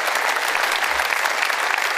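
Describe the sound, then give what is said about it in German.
Studio audience applause in Munich, a steady, dense wash of clapping with no separate claps standing out, loud and even for the whole short stretch. “Thorsten Siegmund ist in Stuttgart parat und kriegt von uns aus München erstmal einen Applaus”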